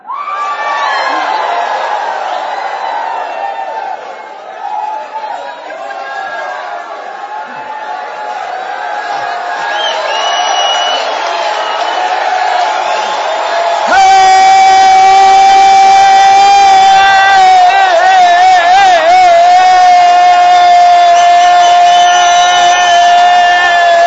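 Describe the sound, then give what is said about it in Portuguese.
A loud crowd shouts and cheers in a continuous, sustained roar of many voices, growing steadier and more tonal in its second half. “I need to hear somebody shout. Eu preciso ouvir alguém gritar.”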